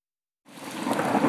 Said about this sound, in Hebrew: יש! גם היום יורד גשם!